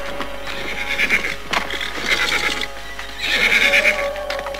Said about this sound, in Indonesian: aku mendengar beberapa ekor kuda baru saja melintas jalan ini